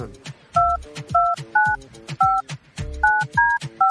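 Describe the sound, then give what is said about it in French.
Touch-tone DTMF keypad beeps as a phone number is dialed to call a contest winner: a series of short, bright two-tone bleeps in an uneven rhythm over a busy, low background with voices. “on va composer le nom de la personne, pas le nom, le numéro de la personne gagnante.”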